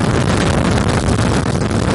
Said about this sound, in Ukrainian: Попри свої чималі розміри, «Хаймерс» легко набирає швидкість, і це ще пересічною місцевістю.